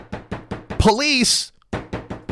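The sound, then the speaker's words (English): Firm, rapid knocking on a door, as by police before forcing entry, in two quick bursts of about four raps each, separated by a short, loud voice. “They have to knock”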